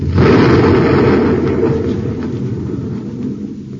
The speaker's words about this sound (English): What a blast. Yeah, there goes a perfectly good light neutralizer blown to bits.